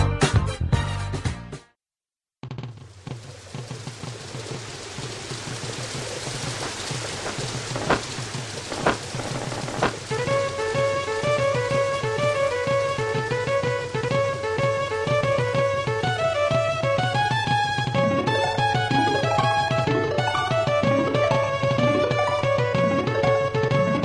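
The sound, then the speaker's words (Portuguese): Music from the SNES video game Donkey Kong Country 2 opens with rain, wind and sharp thunder cracks. A gentle melody with a flute-like line enters over the continuing steady storm noise. “Essa música faz parte de uma das melhores trilhas sonoras do SNES, Donkey Kong Country 2”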